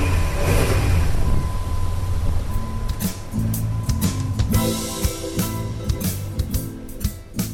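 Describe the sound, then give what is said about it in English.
A car's engine rumbles steadily as it pulls away after refuelling, with a low, continuous drone and some revving. No voices are heard over it. “his wife fueled up and drove away.”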